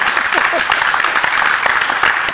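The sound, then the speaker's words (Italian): Audience applause for a guest, a dense and steady wash of clapping that stays loud for the whole stretch, with a few voices faintly mixed in. “farei un applauso a Bruno Cartosio”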